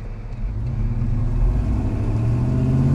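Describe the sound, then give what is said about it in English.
A car accelerating past in a hurry, heard as a loud, continuous low engine rumble that holds steady for the whole stretch, its engine note climbing slightly toward the end, with no voices. “Sure is noisy, eh? This guy's in a real hurry, too. I'll bet you he squeals his tires.”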